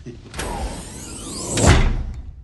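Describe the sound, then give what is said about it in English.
Automatic sliding doors glide shut with a rising, whooshing sweep, ending in a louder, low-pitched thud as they close. “The Thermians leave the room, and the doors slide shut.”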